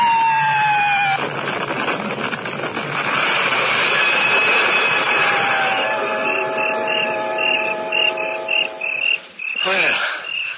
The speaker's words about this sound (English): either German Stukas returning from a raid over England or British Lancasters.